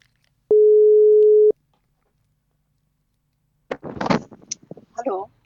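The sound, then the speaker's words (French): A single steady telephone line tone, about one second long, sounds while a radio host dials a guest. After a short silence, brief voices follow. “Donc maintenant, on va essayer d'appeler Sadi.”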